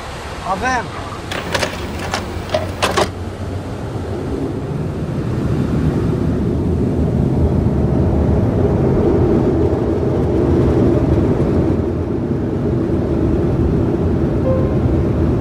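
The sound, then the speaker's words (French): The Concorde supersonic airliner accelerates down the runway for takeoff, one engine on fire and trailing black smoke and flames. Its roar swells into a loud, steady, broad rumble that holds to the end. “Concorde s'élance à plus de 300 km/h.”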